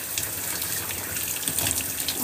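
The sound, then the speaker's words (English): Water from a running tap pours steadily as skin is rinsed under it. The gushing is continuous and even, with a slight splashing change partway through. “And then what I do next is I rinse it off.”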